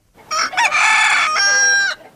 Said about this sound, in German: Ein stolzer Hahn kräht lautstark auf dem Mist.